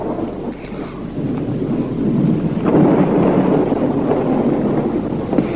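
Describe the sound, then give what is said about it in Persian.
Thunder rolling through a rainstorm: a long, low, continuous rumble over steady rain hiss, swelling in the middle and then holding strong. “صدای رعد و برقه.”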